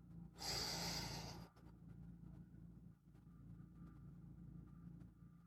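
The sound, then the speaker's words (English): Deep breath in: one loud, breathy rush of air lasting about a second, followed by a quieter low, steady rumble. “On the count of 3, breathe in. 1, 2, 3.”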